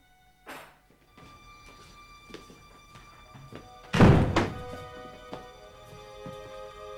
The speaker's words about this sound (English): She opens the door to a rundown flat and lets him in after her.